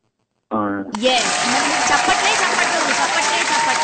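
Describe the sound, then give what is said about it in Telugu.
Audience applause bursts in after a brief voice and a moment of silence, then continues as loud, dense clapping to the end. “చప్పట్లు.”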